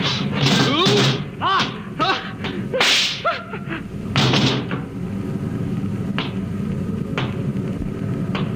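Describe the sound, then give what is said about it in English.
Gunshots ring out in a radio drama: a series of sharp, loud cracks in the first half, then fainter, sparser reports over a steady background. “I'll give you three, Watson, then I shoot.”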